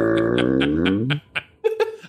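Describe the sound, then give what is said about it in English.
A human voice imitates a cat's meow, a single drawn-out mew that slides downward in pitch, then a few short, soft sounds. “it's more like a, uh, what would it be like a meow”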